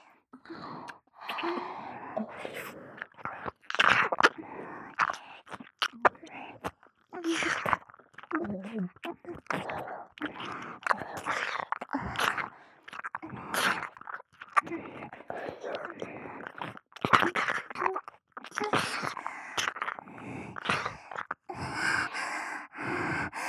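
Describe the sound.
Wet ear-licking sounds in intimate close-up role-play, many irregular smacking and slurping bursts mixed with breathy sighs, gasps and soft moans, continuing steadily throughout.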